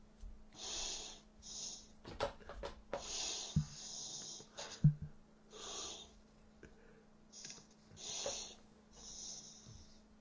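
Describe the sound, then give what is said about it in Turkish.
A person breathing heavily: a slow, repeated series of raspy, wheezing inhales and exhales with snorting catches, fairly faint and alone. “Nefes alışverişi normal yani. Merak etme.”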